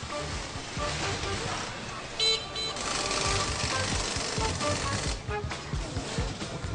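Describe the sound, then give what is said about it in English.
Dense, continuous mechanical clatter from a busy bicycle factory with ten assembly lines drilling, wrenching and testing. Steady, fairly faint din with irregular chopping knocks and a few brief louder bursts. “Ten assembly lines are constantly running, drilling, wrenching, building, and testing at top speed.”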